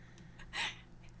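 A deep breath drawn in, a single brief airy rush that swells and fades within half a second, framed by faint softer breaths.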